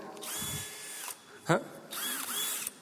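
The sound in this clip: A cordless screwdriver drives in large screws: two steady, high-pitched motor whines separated by a short pause, with a sharp knock between them.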